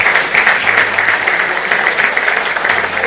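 Audience applause at a Radio Santa Cruz gathering, a dense, steady patter of many hands clapping that holds at an even, fairly loud level for the whole stretch, with no voices over it.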